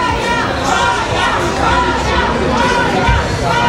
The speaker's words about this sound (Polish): W hali przylotów czekał na nią tłum fanów.